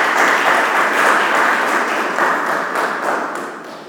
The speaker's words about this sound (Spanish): para comenzar esta conferencia en esta tarde, vamos a recibirla con un fuerte aplauso a la arqueóloga María del Carmen.